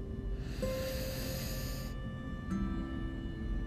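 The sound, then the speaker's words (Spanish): An inhale during a guided breathing exercise: a soft, airy hiss of about a second and a half over a steady low background hum. “Exhala. Inhala.”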